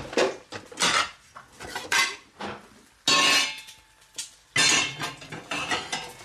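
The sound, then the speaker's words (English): Plates and a serving spoon clatter as nasi goreng is dished onto two plates while eggs fry, with sharp clinks and scrapes in irregular bursts separated by short pauses and no talking. “my nasi goreng is ready, so I'm going to plate that up while these eggs are frying. So, give this a little stir. It is looking so good. Grab my two plates.”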